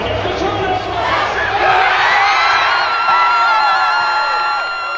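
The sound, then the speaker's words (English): Students watching a Frozen Four semifinal inside Magnus Arena on the DU campus cheer as the Pioneers score against Boston University. Loud, sustained cheering is mixed with whoops and shouts, easing slightly toward the end. “Students watching the game inside Magnus Arena on the DU campus cheered as the Pioneers scored their first goal in the second period.”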